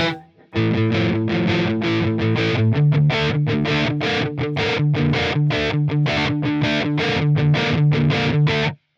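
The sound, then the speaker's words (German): Electric guitar played through a TC Electronic doubler pedal, slightly delayed to sound like several guitars at once: many rapid, even chord strums in a driving rhythm, loud and continuous, with no talk. “Die Idee ist, glaube ich, dass das dann so klingeln soll, als würden mehrere Gitarren spielen, hat man so eine ganz leichte Verzerrung. Nicht Verzerrung, Verzögerung meistens drin.”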